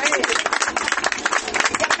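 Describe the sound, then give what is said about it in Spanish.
Applause for a colleague who was present: dense, continuous clapping from a crowd fills the whole two seconds at a steady level, with voices mixed into the noise. “Les voy a dar un aplauso para el compañero que estuvo ahí presente.”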